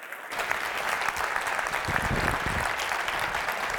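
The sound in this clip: A church audience applauds to welcome a speaker, with loud, dense clapping that holds steady for about four seconds.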